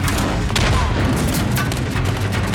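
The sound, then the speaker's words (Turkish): Bombs exploding in a heavy bombardment. Many loud, overlapping blasts and booms follow one another without pause across the whole clip. “Bombalar geliyor.”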